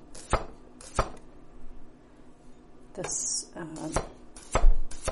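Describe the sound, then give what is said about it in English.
Knife chopping a small washed cucumber, sharp strikes on a cutting board for a salad, coming as a few spaced, crisp thuds and a quicker pair near the end, with a person talking between the cuts. “I think this last cucumber I washed is actually pretty tiny. I'm gonna go ahead and chop that one up too.”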